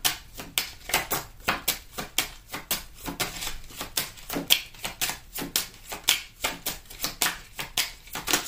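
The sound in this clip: Tarot cards are shuffled with many quick, crisp papery slaps and riffles repeating in a steady, even rhythm throughout.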